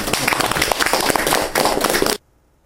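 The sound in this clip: Applause from an audience welcoming a new member at a year-end gathering: dense, continuous clapping for about two seconds that cuts off abruptly into near silence.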